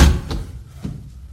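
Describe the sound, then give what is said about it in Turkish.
A door being opened: a heavy thud at the start, then a couple of softer knocks over a low rumble. “Kapıyı açın çocuklar. Gelin içeri.”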